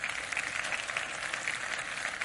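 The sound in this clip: Congregation applauding to welcome the speaker's family during a church service: a steady, dense wash of clapping that holds evenly throughout, fairly soft.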